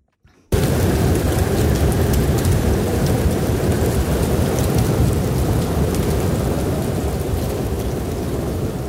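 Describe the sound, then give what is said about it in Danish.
A winter snowstorm roars in as a dense, steady wash of wind-driven noise. It bursts in after a brief hush and stays loud and unbroken to the end. “Hvis du ikke kan høre det, så er det her lyden af en snestorm.”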